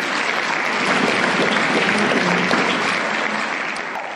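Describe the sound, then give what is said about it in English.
Applause for a speaker at an Alcoholics Anonymous meeting: loud, dense clapping from a roomful of hands, sustained evenly and easing a little in the final moment. “Let's give Peter another hand.”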